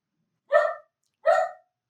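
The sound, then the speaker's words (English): Two sharp, evenly spaced barks from a dog agitated by a sudden thunderstorm, loud and clear against near silence. “my dogs are going nuts because we're suddenly having a thunderstorm here”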